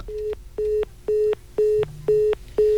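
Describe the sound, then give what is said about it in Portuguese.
Phone line tone after a dropped call: six evenly spaced, steady mid-pitched beeps repeating about twice per second, fairly loud and alone. “Caiu a ligação do Cláudio, já fazemos aí novamente a ligação com o Cláudio da Farmácia Super Popular.”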